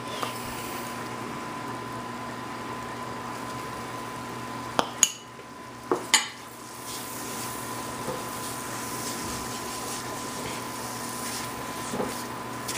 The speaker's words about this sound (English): So here we go, we've got our butter melted. Okay, to our butter, I'm gonna go ahead and add flour.